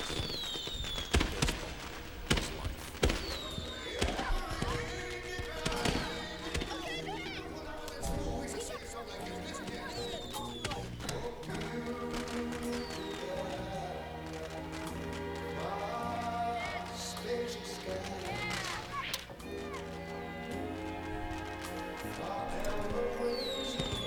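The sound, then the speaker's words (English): Fireworks go off over kids looking up at the sky: sharp bangs and crackles, thickest near the start, then a dense rumbling mix, with people talking throughout. “so now there's fireworks going off as the kids look up in the air.”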